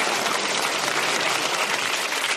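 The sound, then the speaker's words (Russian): An audience applauds a group of girls after a ball-throwing display: a brief, dense, uniform patter of many hands clapping at an even level from start to finish. “Друзья, аплодисменты девочкам.”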